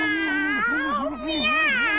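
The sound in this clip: A human voice imitates a cat's meow: one long, drawn-out call with a steady, wavering pitch, heard alone without other voices.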